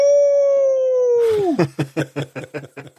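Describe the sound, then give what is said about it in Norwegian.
A voice imitating a dog's wolf-like howl: a long, sustained wail that drops in pitch at the end, then breaks into a quick run of short, pulsing yelps. “så slår han til med sånn ulvehyl”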